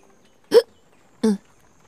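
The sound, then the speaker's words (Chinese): Two short, throaty burps, a satisfied belch after eating, come as separate bursts with a brief gap between them, loud and clear against silence. “任安乐打了个饱嗝”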